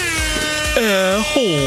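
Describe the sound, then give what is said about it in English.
An air horn sound effect blares in a few loud, brassy blasts, the later ones bending downward in pitch. “Air horn.”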